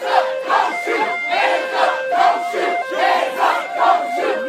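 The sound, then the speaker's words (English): Rhythmic chanting from a protest crowd in Charlotte, North Carolina, gathered after a police shooting of a black man. Many loud, evenly spaced shouted beats repeat steadily with no pause. “Sound from Charlotte, North Carolina, last night, protests after a black man was killed in a police shooting.”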